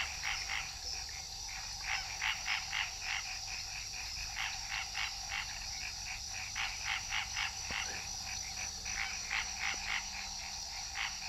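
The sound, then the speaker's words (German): Many frogs croak at night near the Amazon river, their calls forming dense rhythmic pulsed bursts that come and go over a steady high hiss, with no voices. “in der Nähe des Amazonas, über mir die Fledermäuse, Glühwürmchen, die Frösche, die Quaken, unheimlich viele Mücken und dieses Krokodil.”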